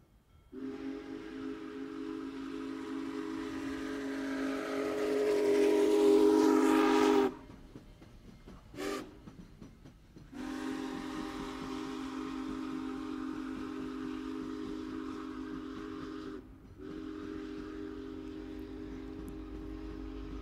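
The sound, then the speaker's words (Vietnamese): A train sounds its whistle in long sustained blasts: the first swells louder before cutting off abruptly, a short toot follows, then two more long steady blasts. “lên tàu hỏa đi tới tỉnh thành”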